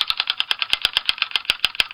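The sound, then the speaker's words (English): A prize wheel spins to pick a winner, giving rapid, steady ticking: many sharp, evenly spaced clicks, fairly loud, that keep an even pace across the whole stretch. “So I'm going to go ahead and spin the wheel to select our winner now.”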